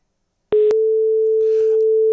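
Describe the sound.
A telephone ringing tone sounds as a radio show phones a handset: after a short click, one steady mid-pitched tone holds loud and unbroken to the end.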